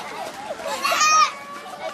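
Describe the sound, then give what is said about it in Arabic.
Children run and play among displaced people's tents in Mawasi Khan Younis, on ground full of sewage water; high young voices chatter and shout, swelling into a louder burst of cries midway. “بين خيام النازحين في منطقة مواصي خان يونس على أرض مليئة بمياه الصرف الصحي يركض الأطفال ويلعبون”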